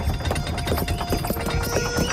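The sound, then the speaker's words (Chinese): Clip-clop of hooves from a horse-drawn carriage in the ancient kingdom of Wu, with many rhythmic, evenly spaced hoofbeats at a moderate, steady level. “谈笑间，吴国千夫长驾着马车驶了过来。”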